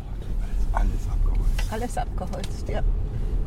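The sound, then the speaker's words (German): A car drives through a forest, its engine and road noise forming a steady low rumble that runs throughout while a voice speaks over it. “Inzwischen sind wir fast angekommen an der Fundstelle. Wir fahren durch den Wald.”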